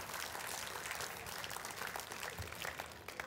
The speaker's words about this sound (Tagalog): Palakpakan natin si Lord.